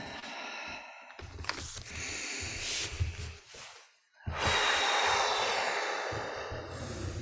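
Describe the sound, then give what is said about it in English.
Deep, cleansing breaths during a mindfulness meditation sitting, drawn in and released as long, airy rushes of breath with a brief quiet pause between them, the final exhale long and full. “taking three deep cleansing breaths.”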